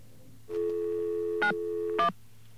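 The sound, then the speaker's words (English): Telephone line tones as a number is dialed to reach an operator: one steady, held tone lasting well over a second, broken near its end by two short, louder bursts. No voices are heard. “Okay, I think we've dialed the right number of digits.”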